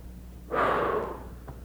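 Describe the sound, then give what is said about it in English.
A single deep breath taken during a church sermon, a breathy airy rush that swells suddenly, holds for under a second, then fades back into a faint low background hum. “Everyone just take a deep breath with me.”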